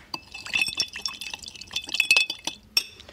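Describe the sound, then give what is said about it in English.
A spoon stirs a smoky cocktail of chipotle, Lapsang Souchong tea and bitters in a glass, making many quick, light clinks and a ringing glassy tone over soft liquid swishing. “Once you've got your bitters in there, give it another little stir.”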